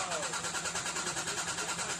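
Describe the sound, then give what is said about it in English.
A car engine cranks but fails to start, giving a quiet, rhythmic churning pulse that repeats evenly without catching, mixed with voices. “your car's not starting”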